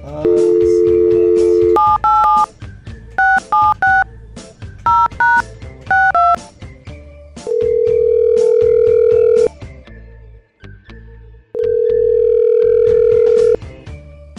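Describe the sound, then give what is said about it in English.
A steady telephone dial tone gives way to a quick series of keypad beeps as a number is dialed, followed by two long ringback tones separated by a pause. “we're gonna give Lynette a call”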